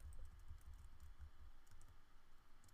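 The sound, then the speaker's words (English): Computer keyboard typing, soft and faint, forms a steady run of quick key clicks over a quiet background with no one talking. “I'm going to pull that up while I'm doing this, so apologies if you heard typing in the background.”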